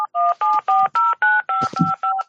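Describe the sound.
Telephone keypad dialing: a rapid, even string of about ten short, bright two-tone beeps separated by brief gaps, heard alone.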